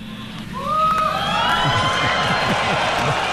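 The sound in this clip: A developer audience at a voice assistant demo bursts into cheering and whooping, swelling sharply after a brief lull and staying loud, with high whistles and shouts riding over the crowd roar.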